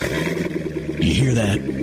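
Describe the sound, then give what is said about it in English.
A Chevrolet Corvette sports car engine idles with a low rumble, then swells into a louder rev in the second half while a voice speaks over it. “That's the sound of America's only sports car. That's right. It's a Corvette.”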